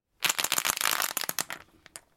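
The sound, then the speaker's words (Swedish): A die rattles and tumbles across a surface during a hockey prediction game, a dense burst of sharp clicks that thins into a few scattered taps before stopping. “Vi får en 2 på tärningen.”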